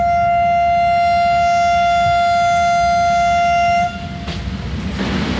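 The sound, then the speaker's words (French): A vintage passenger train sounds a long, steady horn blast as it leaves the station; after several seconds the horn stops and loud rumbling rail noise follows. “À 11h30, le Rovos quitte la gare du Rovos, la grande gare.”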